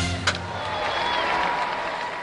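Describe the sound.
Applause, fairly loud and steady for the whole moment, with one sharper accent near the start.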